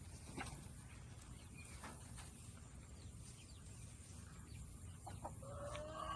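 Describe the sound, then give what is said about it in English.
Faint clucking from chickens in a pen, scattered short calls over a low, steady background. “So yeah, there's chickens so everywhere. Oh my God, there's so many. There's chickens everywhere.”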